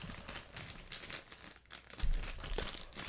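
Crinkling of a bag of Uglies jalapeño kettle-cooked potato chips being torn open: faint, steady crackly rustling throughout, with a few louder crunchy crinkles near the end.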